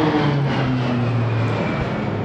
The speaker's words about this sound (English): That was beautiful airplane noise. And actually, we were just talking in our last episode about the Royal Australian Air Force roulettes, and you heard them just fly over.